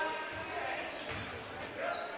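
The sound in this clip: A basketball dribbled on a court during a high school varsity game, a few soft low thuds under steady crowd noise and chatter.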